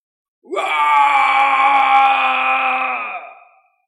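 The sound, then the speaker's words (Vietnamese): A long howling roar rises from a village: one loud, sustained moaning cry that swells quickly, holds steady for nearly three seconds, then fades away, alone with nothing else heard. “trong thôn truyền đến một tiếng gào thét dài, dọa cho một đám trẻ đều nhảy dựng lên”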